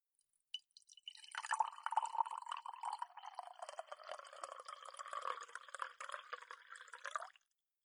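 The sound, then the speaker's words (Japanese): Darjeeling black tea poured from a pot into a teacup as a steady, light trickling stream that lasts about seven seconds before stopping abruptly. “先輩のティーカップと、私のティーカップを置いて。今、紅茶注ぐね。”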